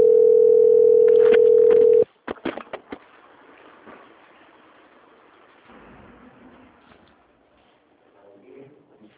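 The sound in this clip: A telephone call transfer tone sounds as one loud, steady, unbroken tone for about two seconds. It then cuts off abruptly and is followed by a few sharp clicks and faint line noise.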